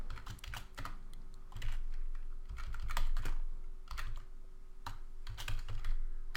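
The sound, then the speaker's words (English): Code being typed on a computer keyboard: many quick, irregular keystroke clicks in short bursts and pauses over a faint steady hum, with no voices. “And let me just type it out, and then I'll explain it.”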